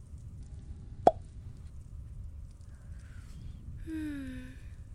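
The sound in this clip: A single sharp cork pop as a wine bottle is opened, one brief loud burst standing out over a faint steady hiss.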